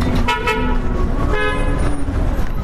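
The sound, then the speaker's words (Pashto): Vehicle horns honk over steady traffic roar on a damaged stretch of the Kabul–Kandahar highway near Ghazni. Two short horn blasts stand out above the continuous rumble of cars passing by. “دلته ډیرای موټران دوری دوری تیریږي.”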